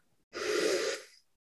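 A single nasal inhale during a guided breathing exercise: a soft, airy rush of breath that swells quickly, holds steady for about a second, then tapers off.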